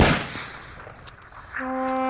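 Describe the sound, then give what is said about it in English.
Firing squad volley of gunshots: a loud burst of gunfire right at the start that trails off into a fading rumble, with quieter sound building again near the end. “Ready. Aim. Fire.”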